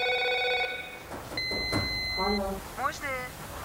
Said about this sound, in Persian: تلفن را جواب نمی‌دهد و به سمت اتاق خواب می‌رود.